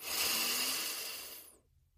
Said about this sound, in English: Now, take a deep breath.